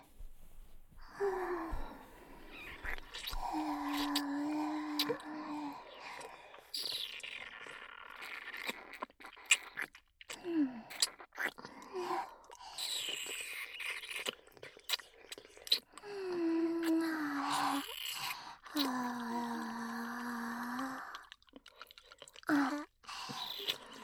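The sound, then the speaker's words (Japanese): Close wet mouth sounds of sucking and biting, with many small clicks and smacks scattered throughout. Soft, breathy voiced sounds rise and fall between them. “吸い付いて噛んであげる。”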